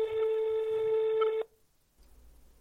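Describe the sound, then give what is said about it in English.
A telephone ringing tone after dialing a number: one steady electronic tone lasts about a second and a half, then cuts off abruptly into near silence. “and so I hit the dial button”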